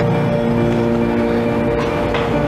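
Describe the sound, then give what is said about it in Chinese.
Steady mechanical hum with a sustained tonal whine from a robot that cleans manure trenches on a livestock farm, running continuously at an even loudness throughout. “我现在操作的这个机器人是专门用于养殖场粪沟清洗用的一个机器人”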